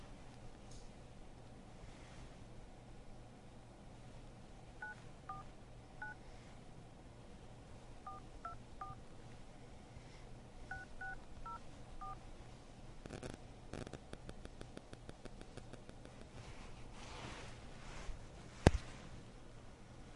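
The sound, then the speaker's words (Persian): Telephone keypad dialing tones as someone places a call: three brief bursts of short paired beeps, faint, over a low steady hiss, followed by a few louder clicks near the end. “دوباره یکی دیگه هم زنگ زد، بذار خودم زنگ بزنم ببینم چه اتفاقی میفته.”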